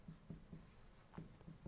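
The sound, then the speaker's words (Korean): Handwriting on a surface during a math lesson on division: a few short, scratchy strokes in two quick bursts separated by a brief pause, with no talk. “그대로 그냥 말로 뱉었으면, 글로 한번 써볼게요.”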